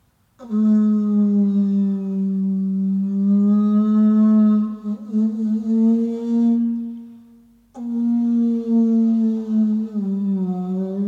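Two long, loud, low blasts come from an ivory trumpet from the Congo, its open end stopped with the palm of the hand. The buzzing tone wavers slightly as it holds, the first note lasting about seven seconds before a brief break.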